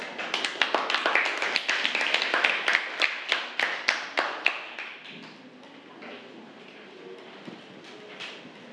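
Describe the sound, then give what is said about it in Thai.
A small group in a classroom applauds a student presenter with brisk, quick clapping for about five seconds, then it thins to a few scattered claps. “สราวุธนะคะขอเสียงประมือด้วยค่ะ”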